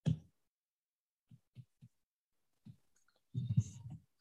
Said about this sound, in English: See if I can write it down here.